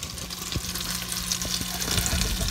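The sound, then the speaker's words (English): Butter melting in a pan: a soft, steady sizzle with faint crackles and a few light clicks, fairly quiet throughout. “Get our butter all melted.”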